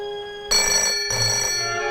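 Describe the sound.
A telephone rings in a light, elegantly decorated flat: after a brief quiet, a bright, steady bell-like ring starts, then a second ring follows immediately and continues to the end.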